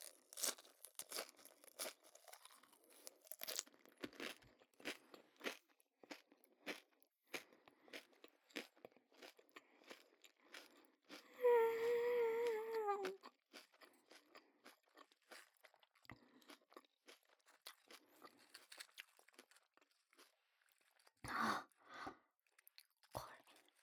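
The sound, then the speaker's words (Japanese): Taco chips crunch and crackle as they are chewed, with many crisp, dry bites in an uneven rhythm. A short voice sounds briefly midway, and the chewing continues afterward. “タコスチップスのパリパリの音、これがまた香ばしい。”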